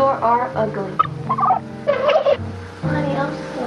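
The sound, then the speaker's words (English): A man imitates a turkey gobble with loud, warbling, throaty bursts that rise and fall in a rapid stuttering pattern. “And then he makes a gobble noise.”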